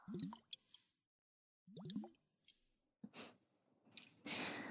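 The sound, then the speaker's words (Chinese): Liquid flows and squishes in soft, wet bursts, with drips and plops in a few separate clusters divided by pauses. The sounds are faint and close. “那么，现在集中注意，仔细聆听，感受其中液体的流动”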